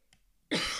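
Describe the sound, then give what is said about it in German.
A single sharp, loud cough breaks an otherwise quiet stretch, lasting about a third of a second and then ending abruptly. “Entschuldigung, jetzt musste ich kurz husten.”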